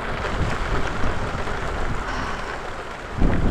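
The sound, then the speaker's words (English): Steady rain pours during a thunderstorm, a dense hiss that holds at an even level, with a low rumble of thunder surging up near the end. “Thank you, rain and thunder.”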